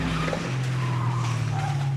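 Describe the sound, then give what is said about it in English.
Tires squeal and skid as a car brakes hard under an inexperienced driver. The sound is a continuous, rough screech over a low engine drone, loud and steady throughout, with no voices. “Stop! Whoa, put the brakes! Brakes! Brakes!”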